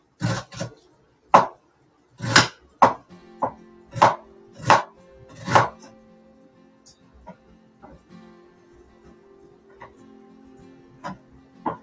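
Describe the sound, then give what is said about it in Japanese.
Knife finely chopping onion: a quick series of sharp, crisp knocks, loud and fairly regular at first, then thinning to a few faint, scattered taps. “玉ねぎをまず、えー、と、水でさらします。ちょっと細かく切ってさらします。”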